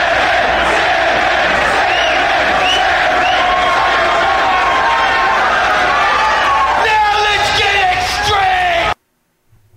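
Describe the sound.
Wrestling crowd at ECW CyberSlam 1996 roaring, yelling and cheering in a dense, loud, continuous wall of voices for about nine seconds before it cuts off abruptly.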